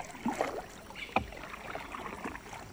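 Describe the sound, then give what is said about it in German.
A canoe glides along a jungle river, soft paddle swishes and faint splashes of water over a low, steady background hiss. “Ein Indianer in seinem Kanu fährt an grünen Urwaldwänden entlang.”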